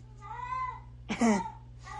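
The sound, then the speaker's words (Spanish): A cat meows a few times in drawn-out, wavering cries over a steady low hum, with the second meow louder and harsher than the first. “ahí está el gato, ¿cómo no?”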